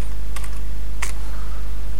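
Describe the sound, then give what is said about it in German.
Keys on a computer keyboard are pressed, including the Return key to stop a running program: a few sharp clicks over a steady low electrical hum. “So, und jetzt hier mal Return drücke, dann halte ich das Programm auch schon an.”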